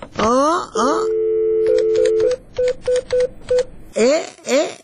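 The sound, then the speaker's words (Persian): A telephone number is dialled as a run of about eight short keypad beeps in a steady rhythm after a held tone, with brief chirping, voice-like sounds before and after. “شما صبر کنین که من زنگ بزنم.”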